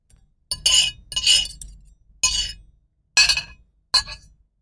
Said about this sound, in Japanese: この人は何をしていますか？ 食べていますね。